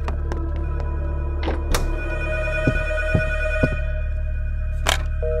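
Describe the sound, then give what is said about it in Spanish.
Several office telephones ringing at once from a single incoming call, a steady tonal ringing over a low hum, broken by a few sharp thunks. “No hay manera de que suenen todos al mismo tiempo por una sola llamada entrante.”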